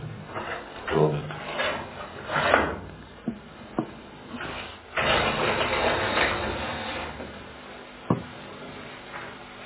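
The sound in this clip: A window is opened: rough wooden scraping and rubbing with a few sharp knocks, a longer grinding slide in the middle, then one more crisp click near the end. No voices are heard.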